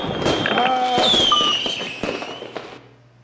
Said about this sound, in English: There's fireworks.